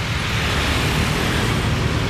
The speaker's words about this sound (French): Dans le verre qui structure les vitres de la voiture qui nous éloigne de Jakarta, dans la route que nous empruntons pour rallier la province voisine de Banten